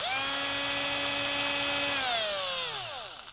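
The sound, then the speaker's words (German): A cordless drill drives screws with fender washers into wood, its motor giving a loud, steady high whine that then drops in pitch as it spins down at the end. “Und ich werde jetzt mit dem Akkubohrer die Augen und den Mund befestigen. Das ist aber auch kein Hexenwerk. Einfach die Kotflügelscheiben mit den Schrauben festschrauben.”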